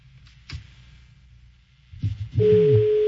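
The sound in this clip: A telephone tone sounds after dialing an outgoing call. A few faint clicks and a rustle come first, then a steady, even tone starts and holds unbroken to the end.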